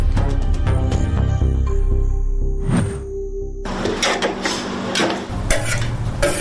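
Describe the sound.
Plov (osh) cooks in a pot with continuous sizzling and frying hiss, broken by repeated scraping stir strokes and light clattering of utensils.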